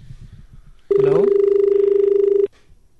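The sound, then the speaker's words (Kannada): Telephone ringing tone announcing an incoming call on a farmers' radio call-in program: a single loud, steady mid-pitched ring of about one and a half seconds with a fast pulsing warble, then abruptly cut off, with low murmur before and after. “ಒಂದು ಕರೆ ಇದೆ, ನಂತರ ನಾ ಮಾತಾಡೋಣ.”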